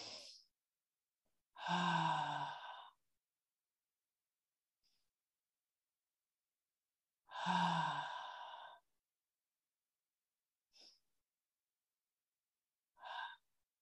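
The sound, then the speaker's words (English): Deep breathing during a guided relaxation exercise: two long, loud breaths of a few seconds each, with a few brief, fainter breath sounds between and after them. No one speaks. “So just breathe in deeply 3 times to let go while Archangel Michael”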